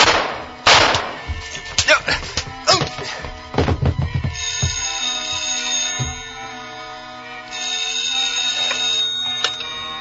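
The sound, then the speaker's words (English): Two gunshots in an office building near a clock room: sharp, loud bangs set apart by a few seconds, over steady, bright, ringing tones. “Two shots, but he missed.”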